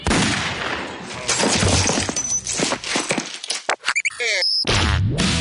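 A 9mm handgun fires, with a cluster of sharp gunshot cracks and brief clinking noises breaking through a dense, noisy sound bed.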